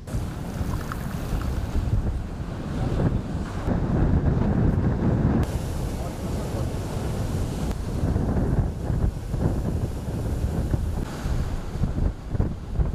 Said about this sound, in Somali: halkan waa xeebta school blueziya ee magaalada Muqdisho